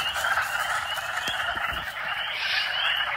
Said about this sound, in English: it's coming through your speakers, but that chorus may also be singing where you live. It's the sound of male spring peepers. These tiny frogs